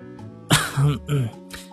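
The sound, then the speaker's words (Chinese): A man coughs and clears his throat in a loud, short, voiced burst broken into two or three pulses, heard on its own. “他咳嗽一声，先用言语拉近距离。”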